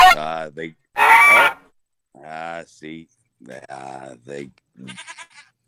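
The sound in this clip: A goat bleats on a dock in several wavering, nasal calls separated by short pauses, with a loud, harsh cry early on and thinner, higher bleats trailing off at the end.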